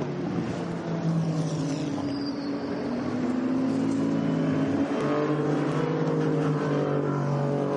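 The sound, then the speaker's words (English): Race cars roar through the Porsche Curves at Le Mans during a three-hour race, a loud, continuous engine drone whose overlapping tones rise and fall as the cars pass, with no voices. “As they come through Porsche curves at the moment, good to see that we're going back racing.”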